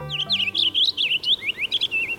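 A songbird perched in a maple tree sings a rapid run of bright, high chirping notes that twist up and down in a lively, continuous warble.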